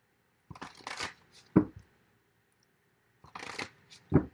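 Tarot cards are shuffled and drawn in two bursts of papery riffling. Each burst ends with a sharp tap as the deck is squared or a card is laid down, with a quiet pause between them and no voices.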